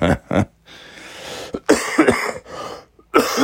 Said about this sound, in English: There's a lot less phlegm. But now my throat hurts, not from a sore throat. My throat hurts because the coughs that I have,